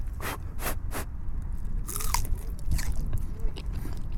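Someone bites into a very thick, browned sausage, about 3 cm across, grilled at a barbecue. A few crisp snapping crunches give way to softer moist chewing over a steady background rumble.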